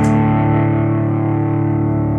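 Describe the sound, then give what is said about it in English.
Distorted electric guitar with its amp tone set for a heavy metal sound rings out in one loud, sustained chord that holds steady for about two seconds with no talk. “I think that you can get a nice metal sound out of it if you play with your amp tones a wee bit. But the distortion, if you ask me,”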